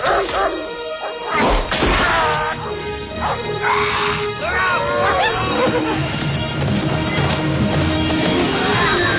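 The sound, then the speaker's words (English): A hound let off its leash barks and yips repeatedly, with occasional whimpers, while voices shout over the commotion. “Unleash the hound!”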